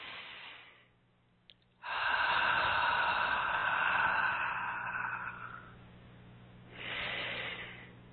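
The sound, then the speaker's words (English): Slow, deep breathing in through the nose and out through the mouth: long, steady, airy hisses, fairly loud with no voice, with shorter breaths at the start and end. “Nice deep breath in through the nose and out through the mouth.”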